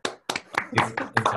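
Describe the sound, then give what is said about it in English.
One person clapping alone for an audience after a talk, a few sharp, slightly irregular hand claps with brief gaps between them. “I'll applaud on everyone's behalf, so not everyone has to.”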